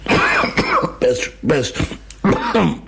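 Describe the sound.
Harsh coughing after choking: a rapid series of loud, rough bursts with throat clearing, coming in uneven clusters over a few seconds.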